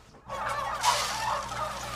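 Hundreds of turkeys in a fattening barn make a dense chorus of overlapping gobbles and clucks that rises sharply from near silence and stays loud and busy to the end.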